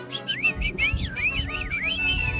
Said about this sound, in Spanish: ¿Son pajaritos? No, son silbidos.